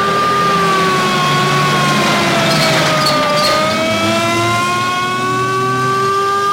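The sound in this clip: A fire engine siren wails loudly and continuously, its harmonic tone dipping slowly in pitch toward the middle and then rising again, over a low engine rumble.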